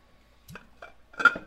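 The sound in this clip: A few light clinks as the lid of an Alien face hugger cookie jar is handled, faint and spaced apart, with no talk.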